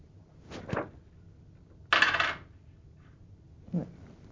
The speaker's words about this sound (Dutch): Leg al het geld op elkaar.